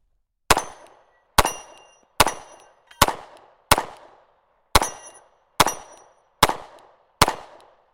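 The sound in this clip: Gunshots at steel plate targets ring out as nine sharp, loud cracks, evenly spaced about a second apart. Each crack is followed by a brief decaying tail, with no talking in between.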